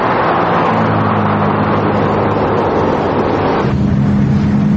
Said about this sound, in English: Robert checks his rearview mirrors as they head over a bridge and pass a sign that reads, "Welcome to Washington."